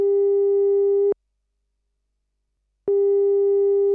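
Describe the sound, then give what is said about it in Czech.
Ringback tone of an outgoing telephone call: a steady, pure, low-pitched tone holds for about a second, stops for a longer silent gap, then sounds again; no voices. “s Vaškem Šandou a zavolám mu hned teď”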